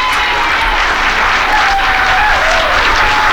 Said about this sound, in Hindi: ढेर सारी तालियां उनके लिए